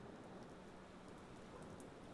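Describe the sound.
Rain falls steadily as a soft, even hiss of drops that stays constant and faint throughout, with no voices.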